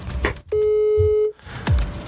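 A telephone rings on an outgoing call: one loud, steady electronic tone lasting under a second, set between short bursts of noise and clicks.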